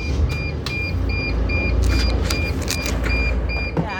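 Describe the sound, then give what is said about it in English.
Turbo diesel van picking up speed on the road, a steady broad engine roar and road rumble inside the cabin, with a repeating high electronic beep sounding in short regular pulses throughout. “Got a little speed on there. So gets going a little faster than I think for a big old van. Really? These are turbo diesels, which is pretty much like all torque, which is what you need to get up hills.”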